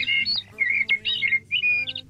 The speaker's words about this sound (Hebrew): לפני שנדבר עליו עוד קצת, בואו נשמע את הצליל שלו. יש לנו את הצליל של השחרור, רגע, בואו נשמע אותו.